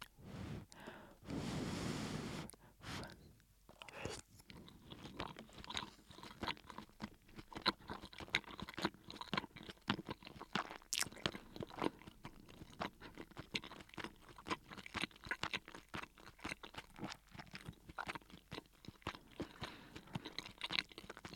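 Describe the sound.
Soft chewing of a Japanese frozen hamburger steak topped with cheese: many faint, irregular moist crunches and mouth noises, quiet and close, following a brief louder rustle near the start.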